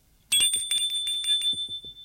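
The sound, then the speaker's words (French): Doorbell ringing at a door: one bright metallic ring that starts abruptly, with sustained high tones that linger and fade. A few faint, low thumps follow. “Il sonne chez Alban.”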